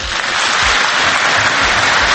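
Loud, dense applause fills the whole stretch as an even, continuous wash of clapping with no clear gaps or single claps standing out.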